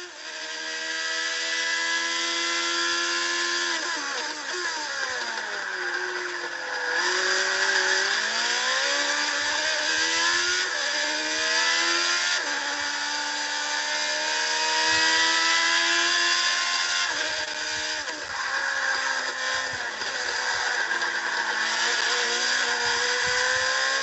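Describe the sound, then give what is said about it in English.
Open-pipe engine of the TSO40 race car lapping COTA, a loud, continuous harmonic snarl that repeatedly climbs in pitch and then drops sharply as it slows and accelerates again, with no voices. “And that is a couple laps around here at COTA. Now let's go ahead and give you a silent one to appreciate the sound of the TSO40.”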